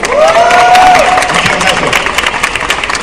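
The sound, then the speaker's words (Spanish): Audience applause for a guest at a live comics talk program: loud, dense clapping mixed with crowd cheering that swells at the start and then holds steady before thinning slightly toward the end. “Un aplauso para Ramón, por favor. Gracias. Y también un aplauso para Gus Martínez.”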